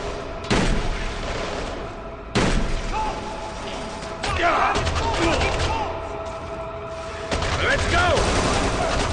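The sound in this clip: Gunfire in a video game rings out in several loud, sharp bursts and volleys, each hitting suddenly and then settling into a sustained crackling roar before the next burst.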